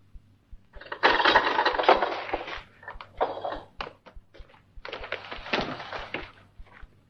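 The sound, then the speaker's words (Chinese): A heavy iron door is hauled open with loud grinding and rattling scrapes in several bursts, over a faint, steady low ticking. “铁门被打开了，几个宪兵杀气腾腾地出现在门口。”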